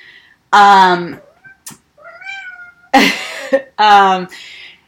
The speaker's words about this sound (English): That's our cat. She's going to meow.